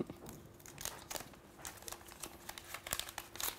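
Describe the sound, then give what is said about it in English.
Crinkling plastic protective film being peeled off a new Xiaomi 17T phone, a steady stream of many dry crackles and crisp tearing snaps that runs throughout at moderate loudness. “The satisfying peel.”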